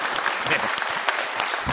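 A venue audience gives a round of applause, dense and steady throughout, with many hands clapping together at an even loudness and a faint crowd murmur underneath.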